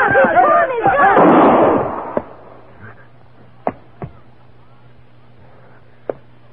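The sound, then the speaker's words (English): A gunshot in a radio drama: a loud, rough burst that decays over about two seconds, followed by a few faint, sharp clicks and knocks on a quiet background. “You killed me. What's he mean, you killed him? He shot himself.”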